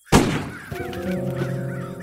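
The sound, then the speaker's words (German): A bird hit by a gunshot caws: a sharp, loud bang is followed by a harsh, wavering, honking cry. The cry holds for about a second and a half before fading. “Du hast den Vogel erwischt, Volltreffer.”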